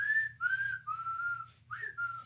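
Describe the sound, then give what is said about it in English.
Whistling blown out of the side of the mouth: a short run of several clear, sustained high notes with brief gaps between them, a faint low hum underneath. “my other hidden talent is that I can only whistle out of the side of my mouth”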